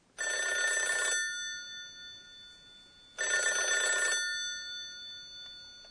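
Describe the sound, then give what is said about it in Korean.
A telephone bell rings in two trilling, metallic bursts, each about a second long and separated by a two-second pause. The rings are bright and fairly faint, with no other sound around them. “브루루루 전화벨이울리는소리네요”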